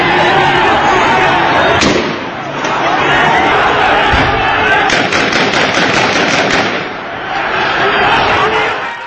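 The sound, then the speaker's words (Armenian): Gunfire and crowd noise during street clashes between protesters and police in Iran: loud, sharp shots, one crack near the start and dense rapid volleys later, over a constant roar of crowd voices. “այս կրակոցները և աղմուկը լսվել են նույնիսկ Թեհրանի շրջակայքում”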